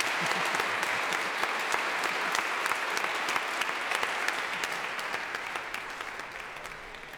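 Audience applause fills the Royal Albert Hall at a Prom concert, a dense, steady wash of many clapping hands that holds throughout and tapers slightly toward the end.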